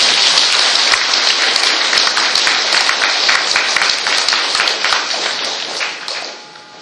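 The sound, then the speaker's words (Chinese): A church audience applauds: dense, loud, sustained clapping from many hands holds steady for several seconds, then thins and fades near the end. “我们给他们鼓掌好不好？”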